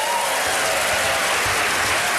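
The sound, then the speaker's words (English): Applause from a theater audience at the Studebaker Theater in Chicago, a dense, loud, steady wash of clapping that fills the whole moment without a break. “for every person applauding, the Public Radio Fairy awards us $10”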